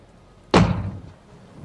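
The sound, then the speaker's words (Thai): A house door is kicked from outside: one sudden heavy thud with a sharp crack on impact and a short rumbling decay, then near quiet. “มีคนถีบประตูบ้านพักจากด้านนอก”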